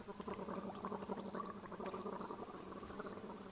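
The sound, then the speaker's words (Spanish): A woman gargles after taking a drink, a faint, continuous bubbling rattle that goes on without a break. “Ella da un trago y sale haciendo gárgaras.”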